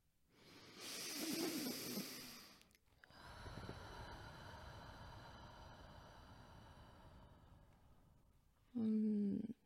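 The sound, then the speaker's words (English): A group of people take a slow breath together before starting: a long airy inhale, a brief pause, then a sustained breathy exhale, closed by a short voiced sound. “I'd like to lead us in a breath before we begin, if everyone would like to join me.”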